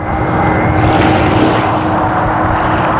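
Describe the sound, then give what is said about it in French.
A propeller airplane flies over the site, its engine a loud, steady droning roar with a low, throbbing hum. The sound holds constant throughout, with no voices. “Puis, un avion survole les lieux.”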